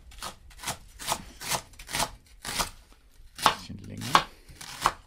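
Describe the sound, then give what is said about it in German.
A sharp knife cuts leek into medium pieces on a board in a series of crisp, dry chopping strokes. The strokes are evenly paced at first, then spaced further apart. “den Porree mal so in mittelgroße Stücke. Man kann die Schärfe des Messers richtig hören, stellt Andi Knoll fest.”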